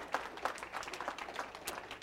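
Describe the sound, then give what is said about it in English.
Church audience clapping in a steady, faint patter of many hands that carries on evenly for the whole stretch. “Give a lot of clap offering.”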